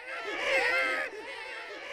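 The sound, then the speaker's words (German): A chorus of theatre actors' voices imitating a newborn baby's crying, marking a birth on stage: overlapping high, wailing tones, loudest in the first second before easing slightly and carrying on. “Mit chorischem Babygeschrei wird Jean-Baptiste Poquelin alias Molière im Januar 1622 zur Welt gebracht.”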